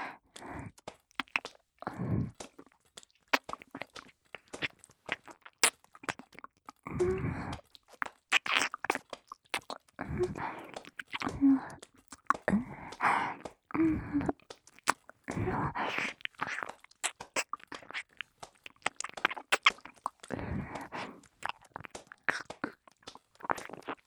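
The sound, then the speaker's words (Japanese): Wet licking and smacking mouth sounds come in many short, irregular bursts with crunchy clicks, mixed with soft breathy, whisper-like sounds throughout. “気持ちを込めて舐めさせていただきます。”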